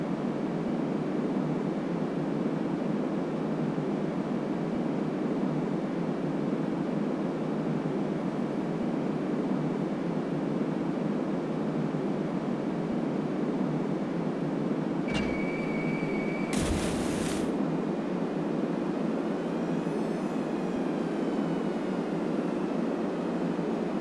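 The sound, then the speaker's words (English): Steady engine roar of a torpedo bomber flying low over the water on a torpedo run in the video game Battlestations: Midway. The dense drone holds constant throughout, with a brief tonal burst partway through. “Now perform a torpedo run on the cargo ship. Torpedoes are dropped just like bombs, but you won't see a reticule. Remember to fly low.”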